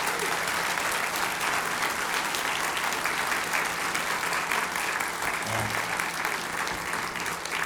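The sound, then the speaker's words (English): Audience applause for the catering staff at Áras an Uachtaráin, a steady, even roll of many hands clapping that continues without a break, fairly soft overall with a faint low hum beneath. “So give them a special round of applause”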